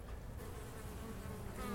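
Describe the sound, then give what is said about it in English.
Honeybees buzz at the entrance of a busy summer hive: a faint, steady, even drone that holds without a break. “You can see now there's plenty of action there at the mouth of this hive, so that's a good sign.”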